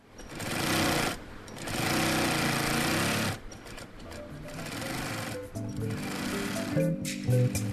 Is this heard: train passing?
no